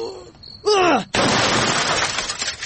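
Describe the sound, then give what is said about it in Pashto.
A television is smashed with a loud, sudden crash that trails into a noisy clatter of breaking debris. A brief voice cries out just before the impact. “والکه څه کوې؟ تلویزیون دې مات که.”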